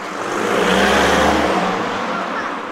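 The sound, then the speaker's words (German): Loud car traffic passing near an underpass by a lake: a broad rushing roar that swells toward the middle and then eases slightly, with no talk. “An der Unterführung zum See rauscht die Bahn vorbei. Die Autos sind laut, Menschen kommen und gehen.”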